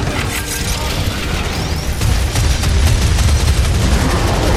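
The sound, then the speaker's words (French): Sustained heavy gunfire in a battle, loud, dense bursts and booms blending into a continuous roar that swells slightly toward the end. “Continuez de tirer!”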